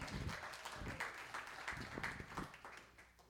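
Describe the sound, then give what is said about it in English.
An audience applauds a prize winner at a drawing, with steady, dense clapping throughout. “Come on, give her a hand.”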